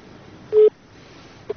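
A short telephone beep marks an incoming caller on a radio call-in show, followed moments later by a fainter second blip over a quiet hiss.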